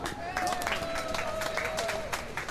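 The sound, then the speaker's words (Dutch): Crowd applause greets elderly women as each is introduced at a Dutch gathering: continuous, fairly faint clapping from many hands, with a voice sounding above it. “Ja, geef een heel groot applaus.”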